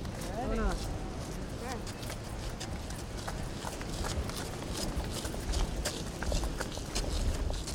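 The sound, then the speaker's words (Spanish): People run up a slope toward the top of Torrey Pines, their feet making a quick, steady patter of many steps beneath continuous voices. “luego empezamos, ya, a lo que vinimos, a correr, en una pendiente hacia la cima de Torrey Pines.”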